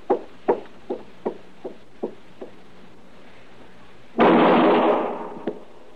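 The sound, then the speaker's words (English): Gunshots in an alley, made as a radio drama sound effect: seven sharp pops in a steady rhythm, each a little fainter than the one before, then a louder, longer burst of noise after a short pause. “All right, that's enough shooting”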